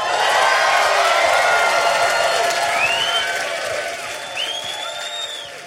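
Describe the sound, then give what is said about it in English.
Loud, constant din of a crowded restaurant with a bachelorette party nearby: dense overlapping chatter from many people holds steady throughout, easing slightly toward the end. “It's incredibly loud in here. I know, right? Hey, can we be seated not next to a bachelorette party and a group of guys”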